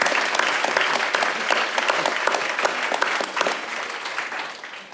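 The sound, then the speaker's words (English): An audience applauds to welcome a speaker to the stage at an evening talk, with dense, sustained clapping that holds steady and then thins slightly toward the end, without any speech. “Please give her a warm welcome so she can tell us what we're going to enjoy tonight.”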